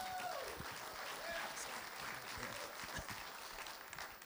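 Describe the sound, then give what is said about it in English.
An audience applauds to welcome a guest speaker to the stage, a fairly faint, steady patter of many clapping hands that continues throughout and tapers slightly at the end. “So if you would put your hands together and welcome him.”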